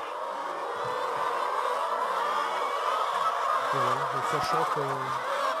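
Hens cluck in a henhouse over a constant rushing background noise. Short tonal calls come in a few bursts toward the end, some clipped and some held slightly longer.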